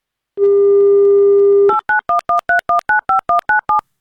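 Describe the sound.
A telephone dial tone sounds while a call is placed to a listener: a steady low hum, followed by ten quick, evenly spaced two-tone dialing beeps, loud and alone.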